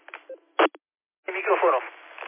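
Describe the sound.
Telephone keypad tones as a number is dialed to make a call, a few short electronic beeps with gaps, then a longer burst of voice over the line.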